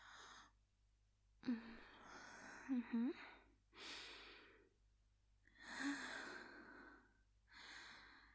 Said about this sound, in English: I can do a few deep breaths.